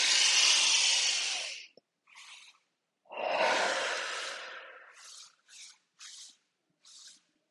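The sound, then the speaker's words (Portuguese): Deep breathing: a long, loud breath filling the lungs, a pause, then a second long breath, followed by a few short, softer breaths. “Respira profundamente. Se conecta com seu corpo. Deixa o ar encher seus pulmões. Faz comigo.”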